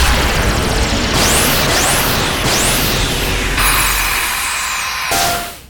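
Beam weapons fire at a target amid explosions: a few sweeping, zapping tones ride over a loud, dense roar of blasts, with a further burst late on before the din cuts off abruptly.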